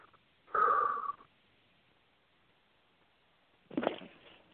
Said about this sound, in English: Take a nice deep, deep breath.